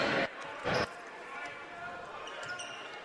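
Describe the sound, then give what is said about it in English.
A basketball is dribbled on the court during a high school boys' game: two loud, sharp bounces close together, followed by quieter background noise. “Sim, crossover dribble.”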